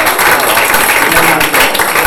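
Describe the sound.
Applause from a sound effect track: a loud, dense, continuous wash of many hands clapping, steady and unbroken throughout.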